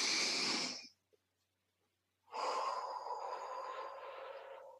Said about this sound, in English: Hand on your stomach. And first breath in.